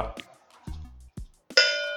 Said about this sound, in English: here's three bells for episode 100 on the Wild Bill mug